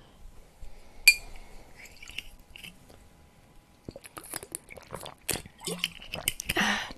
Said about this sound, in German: Obwohl, er trinkt einen Schluck.